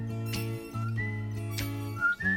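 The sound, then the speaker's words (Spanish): A whistled melody rings out in a song: short, high whistled notes sit over steady, low sustained instrumental backing, with no voices. “en el podio musical del día de hoy se pelean tres canciones que tienen silbiditos.”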